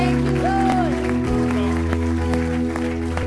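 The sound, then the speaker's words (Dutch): A church audience claps in praise of the Lord, giving a moderate, scattered spatter of hands that stays steady for about three seconds. “Come on, let's give the Lord a hand of praise.”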